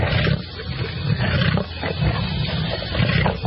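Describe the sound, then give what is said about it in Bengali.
An angry leopard roars from a thicket, a loud, continuous, rough growling rumble that holds for the whole few seconds with slight swells in intensity. “বাঘের গলার ক্রুদ্ধ গর্জন, ঝোপ সঙ্গে সঙ্গে ভীষণ নড়ে উঠল, আর তার পর মুহূর্তেই চিতাবাঘটা আমাদের উপর সোজা ঝাঁপিয়ে পড়ল।”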